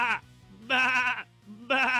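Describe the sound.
Sheep bleating in three loud, wavering bleats with pauses between them, each a drawn-out nasal cry, with no talk over them.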